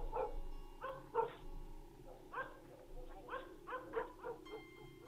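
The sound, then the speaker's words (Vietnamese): A dog barks insistently in a string of many short, sharp barks at an uneven rhythm, fairly faint overall. “Bất giác có tiếng chó sủa inh ỏi vang lên.”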